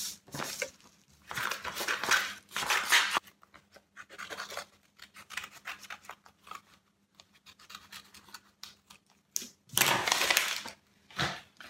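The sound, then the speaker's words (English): Scissors snipping and rustling through paper while cutting out a glued dove craft shape with a map print, in several uneven bursts of crisp cutting with short pauses between, and no talking. “what your dove's going to look like on the right side when you do it. Use your glue. put that on there. And cut it out again.”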